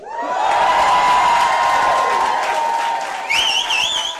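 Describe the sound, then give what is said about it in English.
Wedding guests at one of Australia's first same-sex weddings cheer and applaud after a countdown, a loud, dense burst of clapping and shouts that holds steady, with a shrill wavering whistle joining near the end. “That was the sound of guests at one of the nation's first same-sex weddings, counting down to the day such weddings officially became legal in Australia.”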